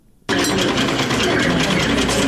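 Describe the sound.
Sewing machines run in a tailoring training workshop, a loud, steady mechanical rattle and whir that starts abruptly and continues without pause.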